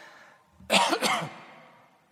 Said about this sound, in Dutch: als je enthousiast wordt, krijg je soms een beetje kriebel in je keel